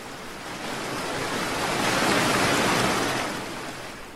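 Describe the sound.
Ocean waves at sea around a boat: one broad wash of surf noise that swells steadily to a peak and then subsides, with no voices.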